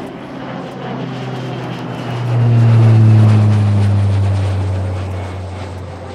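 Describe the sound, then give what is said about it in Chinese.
An airplane takes off, its engine drone swelling into a loud, deep, steady roar that holds for a few seconds and then slowly eases away. “准备要起飞了！这个燕子飞机呢，大家都系好安全带了，准备起飞，倒数三、二、一。”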